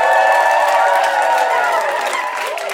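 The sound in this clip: Live audience cheering and applauding at the London festival in 2019, a loud, continuous crowd roar with pitched whoops and shouts riding over it. It eases off slightly toward the end.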